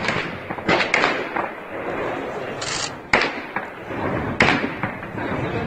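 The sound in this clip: Sharp cracks of gunfire from armed attackers assaulting a building complex in Tehran, captured on TV: a few loud, abrupt bangs at irregular intervals over a constant rushing noise.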